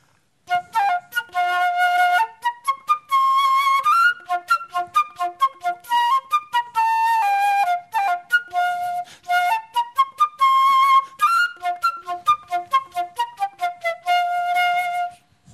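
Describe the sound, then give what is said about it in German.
A golden flute plays practice scales: rapid runs of clear, bright notes climbing and descending, many notes in quick succession with short breaks between phrases, played alone without talk. “Der Sir James hat seine goldige Flöte bei sich. Dürfen wir mal hören, wie es tönt, wenn er eine Tonleiter spielt, wenn er übt?”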